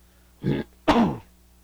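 Someone coughs into an elbow: two rough, muffled bursts, a short one followed by a longer, heavier one, with quiet before and after.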